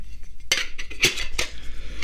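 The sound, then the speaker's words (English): Metal clanks and rattles of a good-sized cook pot from a survival kit being handled, with three sharp, bright knocks separated by quieter rattling over a low hum. “There's my cook pot, and that's a pretty good sized cook pot.”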